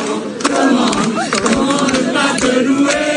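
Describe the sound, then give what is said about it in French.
A huge crowd of worshippers cheers and acclaims Pope Leo XIV at a giant open-air mass on the Place de la Concorde in Paris. Loud, dense massed voices and shouts sustain steadily throughout. “800 000 personnes étaient présentes hier à la messe géante célébrée par Léon XIV sur la place de la Concorde à Paris. Le pape acclamé par des catholiques”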